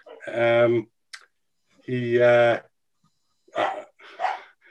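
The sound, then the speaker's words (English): A dog barks in the background during an interview, giving two loud, drawn-out, tonal barks, followed by brief bursts of talk. “Can you hear the dog in the background?”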